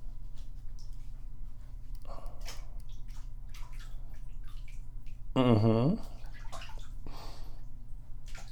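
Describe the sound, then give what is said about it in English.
Bath water sloshing and splashing as a baby is washed in the tub, with a short vocal sound rising above the water partway through. “Hold on. Daddy's gotta wash everywhere.”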